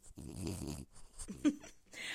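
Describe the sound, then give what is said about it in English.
A small dog snores and snorts while resting on a person's lap, giving a few low, rough, snuffling breaths at fairly low volume. “if you hear some snoring in the background, my little Valentine is sitting on my lap. So I'm so sorry. You're just going to have to ignore the snores and snorts from Norman”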